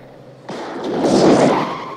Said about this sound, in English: The car swerves off the road and plows into a group of workmen and road signs.